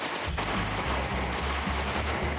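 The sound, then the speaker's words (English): A 1928 Thompson submachine gun fires a rapid, even string of muffled, low thumping shots at a steady rhythm. “Here's your Thompson. It's a machine gun known as the Chicago Typewriter. It's got the 1928 brand on it, and cool.”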